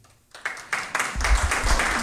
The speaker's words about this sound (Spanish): Quiero brindar, luego de nombrarlos, por favor, un caluroso aplauso para nuestro amigo el señor Luis Gamboa Tello.